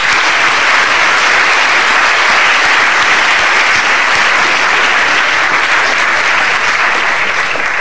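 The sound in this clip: Loud, sustained applause from an audience at an LSE public event welcoming three speakers, an even, unbroken roar of clapping throughout.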